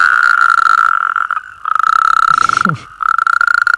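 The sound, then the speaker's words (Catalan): Frogs and toads croaking at night: a loud, steady pulsing trill that runs in a few long stretches broken by brief gaps, with a lower rasping call surfacing near the end. “Aquestes serenates nocturnes. Això també és una maniobra de seducció, eh? Sí, perquè el que... I a més hi ha una cosa molt curiosa. Pensa que aquests, els gripaus, granotes, molts amfibis, canten a les últimes hores del dia i ja a entrada la nit.”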